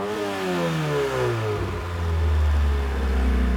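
A car engine running on a rich fuel mixture drops from higher revs into a steady, low, rumbling idle that continues loudly to the end.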